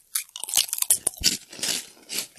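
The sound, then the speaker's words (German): Someone eats crunchy vegan krupuk crackers out of a bag, with many sharp, irregular crunches and bites followed by softer chewing, and no talking. “weil ich diese Kropuk wirklich, ich könnte diesen Beutel hier leer essen, ne? So lecker sind die.”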